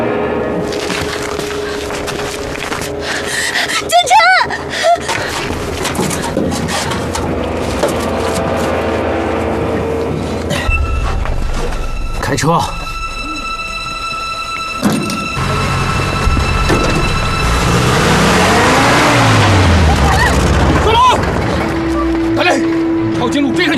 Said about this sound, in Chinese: 下车！你来开车。